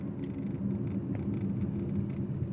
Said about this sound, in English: I'm driving through like a combination residential and industrial district right now.